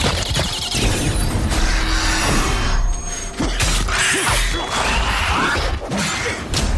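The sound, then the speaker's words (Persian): Geralt is slammed against a big rock in a fight scene: a dense, continuous wash of crashing impacts, scraping and whooshes with no clear gaps. “اما گرالتو میکوبه به یه سنگ بزرگ.”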